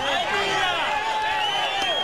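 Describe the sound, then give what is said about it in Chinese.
A crowd cheers at an earthquake rescue site in Cali as a woman trapped for over 30 hours is carried out on a stretcher. Many overlapping voices form a continuous, fairly quiet cheer. “同样在卡利市，还有一位受困超过30个小时的妇女被放到担架上抬出来，现场鼓掌欢呼。”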